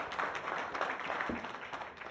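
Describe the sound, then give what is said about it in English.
An audience claps in appreciation for the worship leaders at a church service in Dunning Park. The clapping is dense, steady and fairly soft, and carries on throughout without a break. “Give a clap of appreciation for those that led us in worship.”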